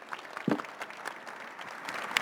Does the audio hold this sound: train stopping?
no